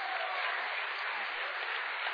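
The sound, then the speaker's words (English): Applause for the children who helped with a story session: a quiet, steady patter of clapping with a thin, muffled tone that stays even for about two seconds and has no talking. “round of applause for all my story helpers.”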